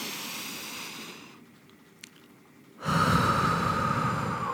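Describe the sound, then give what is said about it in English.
Slow deep breathing, in through the nose and out through the mouth: a long airy breath fades into a quiet pause, then a louder, rushing breath begins and continues. “breathe in through your nose and then out through your mouth. So breathe in again and out. And we're going to do it one more time. Breathe in.”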